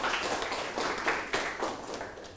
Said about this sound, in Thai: ถูกต้องครับปรบมือให้เพื่อนหน่อยครับ